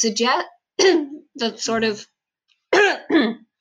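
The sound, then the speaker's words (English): A person coughs repeatedly in a series of short, rough, voiced bursts grouped in quick clusters with brief pauses between them. The coughs are loud and heard alone. “sorry, I'm going to have to cut that out because I coughed a lot.”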